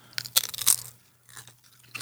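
Crunching of a barbecue-flavoured potato chip being bitten and chewed during a taste test, with sharp, crisp bursts in quick succession, a short pause, then softer chewing crunches, faint over a low steady hum.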